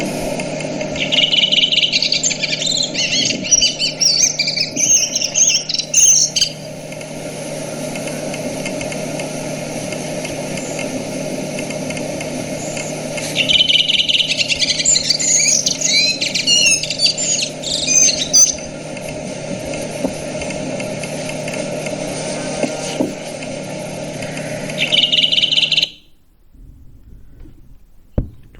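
Bird song: two long bursts of high, rapid chirps and trills, then a brief third burst, each over a steady low engine-like hum that cuts off abruptly near the end.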